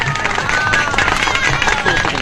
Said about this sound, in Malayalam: കുട്ടിയെല്ലാം ചേർന്ന് കൈയടിച്ച്. അടുത്തതായി മായാജാല പ്രകടനങ്ങൾ. കുട്ടിയെല്ലാം ചേർന്നോട് കൈയടിച്ച്.